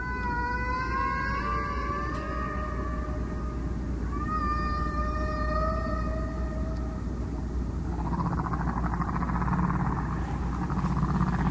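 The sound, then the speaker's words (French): Humpback whale song from a played recording: long, sliding tonal moans and higher whistling notes, several of them falling in pitch, over a constant hiss of background noise. “On va l'écouter. Face 1. Un solo de baleines.”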